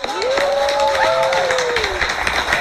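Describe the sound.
Live studio audience applause: clapping with crowd cheering, including a sustained whooping voice that rises and then holds over the claps.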